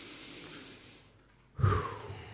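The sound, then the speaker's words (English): A group at a live religious gathering draws a deep breath in together. After a soft, hushed lull, a loud, airy rush of breath swells up and then slowly fades. “everyone take a breath. Let's take a breath in.”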